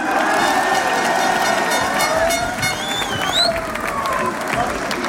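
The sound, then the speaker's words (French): A football crowd chants the name of footballer Mamadou Sangaré, loud continuous chanting mixed with cheering and applause that holds steady throughout. “à entendre les Mamadou qui sont scandés par le public, je confirme.”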